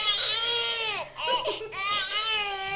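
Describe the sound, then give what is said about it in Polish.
An infant simulator doll used in parenting training gives an electronic baby cry: a steady, high wailing in two long stretches with a brief break between them. “Dostał butelkę i przestał płakać.”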